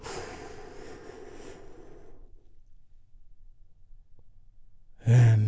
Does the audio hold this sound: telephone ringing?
no